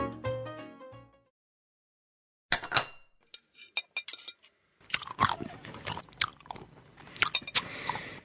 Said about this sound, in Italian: mastica a bocca chiusa. Perché? Sei maleducato e non parlare con il cibo in bocca.